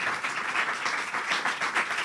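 Quiet applause from a stand-up comedy audience, a soft, continuous patter of many hands that swells and dips slightly over two seconds.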